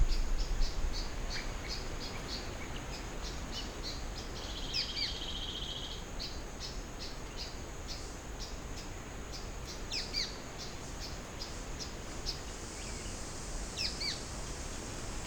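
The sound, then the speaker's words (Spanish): A male and a female bird sing in the understory of a várzea flooded forest, close to the ground. Their high, repeated chirps carry over a constant, dense drone of insects. “un macho y una hembra. Esto es un bosque de Várzea. Están cantando a más o menos un metro del suelo, en el sotobosque.”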